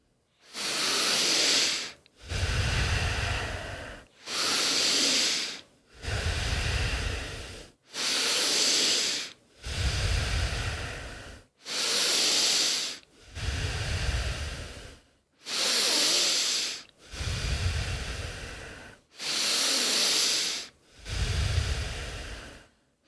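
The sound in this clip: Rhythmic, forceful breathing during a breathwork exercise: many loud, hissing breaths in a steady, even cycle, with deeper and airier breaths alternating. No talking is heard.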